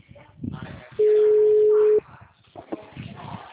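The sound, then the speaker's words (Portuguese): A telephone busy tone after a dropped call sounds as a single loud, steady, mid-pitched electronic tone lasting about a second, with speech just before and after it. “Ah, caiu a ligação.”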